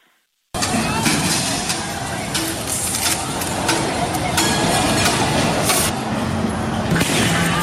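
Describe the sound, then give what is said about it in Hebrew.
A loud, chaotic din as protesters in Kwun Tong, Hong Kong clash with security forces, throwing stones and heavy objects against tear gas grenades and batons. After a brief silence, a dense continuous roar breaks in, scattered with sharp impacts. “בצילומי הווידאו נראים המפגינים זורקים אבנים וחפצים כבדים אל עבר אה, כוחות הביטחון, ואלה משיבים מתנגשים ברימוני גז מדמיע ובמקלות, כך זה נשמע.”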